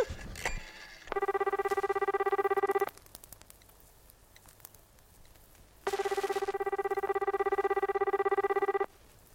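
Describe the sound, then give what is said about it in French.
A telephone rings in two long bursts separated by a pause of quiet, faint background noise. Each ring is a loud, buzzy electronic trill with a steady pitch and a rapid fluttering pulse. “Le téléphone, vite!”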